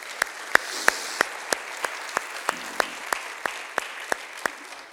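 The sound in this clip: Audience applause welcoming guests, heard as fifteen evenly spaced claps in a steady beat over a low, continuous wash of noise.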